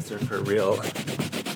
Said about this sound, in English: And now she's using a kitchen sponge. Yeah. Which I'm scrubbing it. Do you hear it?